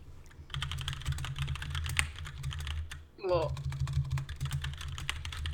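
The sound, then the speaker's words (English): Rapid typing on a computer keyboard, many quick light clicks in an uneven stream over a low hum, broken by a brief pause midway before the tapping resumes. “I'm just going to type it to you, because it's,”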